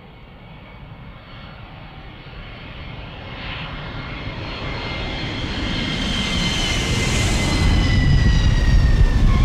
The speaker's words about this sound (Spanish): vámonos a, a Hawái, vamos a coger el avión